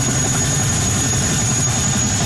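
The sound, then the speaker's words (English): Steady drone of a National Guard military helicopter delivering troops and supplies in Hawaii as a hurricane approaches. A loud, unbroken low rumble runs under a thin, constant high whine. “A National Guard helicopter is delivering troops and supplies to the region.”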